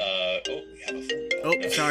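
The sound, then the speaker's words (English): A Siri notification sounds on a smartphone connected to a computer, a short run of bright electronic tones stepping between pitches over about two seconds. “apologies, everybody. My wife's phone is connected to the computer. So my apologies, but there we go. And the most important thing is, oh, sorry, it's a mystery now. Damn you, Siri.”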